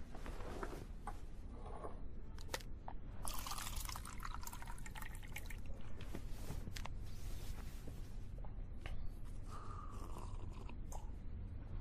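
Water is poured into a glass, faint liquid splashing and trickling with small clinks and drips, ending in a brief rising filling tone.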